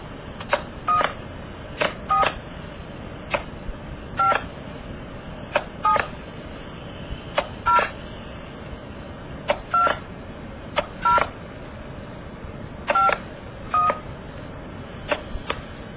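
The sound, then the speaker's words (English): Touch-tone telephone dialing a direct call using 0 plus an area code and number: a long series of short dual-tone beeps at uneven intervals over steady line hiss. “This call, I'm going to call my home phone, which isn't connected, but I'm going to dial it using 0 plus my area code and telephone number. It's dialing a direct call.”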